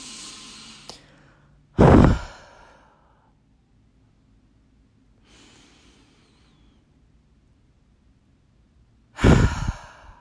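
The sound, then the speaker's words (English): Deep cleansing breaths are drawn and released slowly: two loud, sighing exhales with a much softer breath between them, separated by long quiet gaps, and no talking. “Just take a big couple cleansing breaths, just dropping in a little bit more to this experience.”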